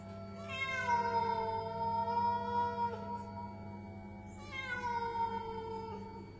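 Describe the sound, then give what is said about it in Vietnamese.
A black cat meows twice, each a drawn-out, high call that slides downward in pitch, separated by a few seconds of quiet low hum. “Con mèo nghiêng nghiêng cái đầu rồi đột nhiên kêu lên mấy tiếng.”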